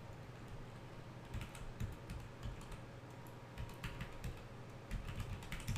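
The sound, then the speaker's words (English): Fingers typing on a computer keyboard, with many rapid, uneven keystroke clicks in a steady stream throughout and no talking. “Let me type in something.”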